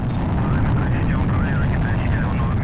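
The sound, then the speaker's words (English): Roar of the Soyuz TMA-05M rocket at liftoff, a heavy, unbroken low rumble with a broad hiss above it, holding steady and loud for about three seconds. “Liftoff. Liftoff of the Soyuz TMA-05M carrying Sonny Williams, Yuri Malenchenko, and Aki Hoshide on a two-day journey to the International Space Station.”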